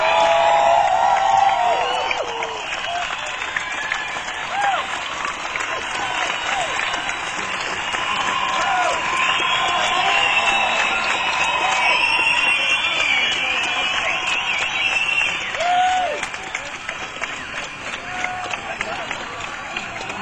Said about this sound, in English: So I think we want to give him a huge hand, and we want to welcome Gordon Lightfoot. Let's hear it.